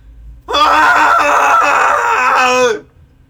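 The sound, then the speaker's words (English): A group screams together in a cathartic Friday scream. The loud, sustained, high-pitched shrieking swells in at once, holds for about two seconds and then cuts off abruptly. “It's Friday. Let's scream together in 3, 2, 1.”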